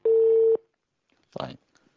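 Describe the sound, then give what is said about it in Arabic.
A single steady electronic tone sounds from a telephone line as a call cuts off, holding level for about half a second before stopping, followed after a pause by a brief burst of voice. “طيب انقطع الاتصال تقريبا.”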